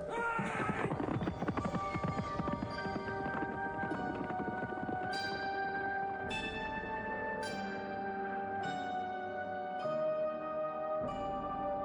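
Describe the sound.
Horse hooves clip-clop as a rider sets off, a steady, evenly spaced run of hoof beats over a droning, sustained tonal background.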